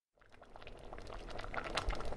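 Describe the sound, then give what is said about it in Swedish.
Bubbling from carrot juice boiling in a kitchen pot: a dense, crackling bubbling that starts abruptly and grows steadily louder, with no voices. “Lille Skutt stod i köket och kokade morotsaft när vännerna kom på besök.”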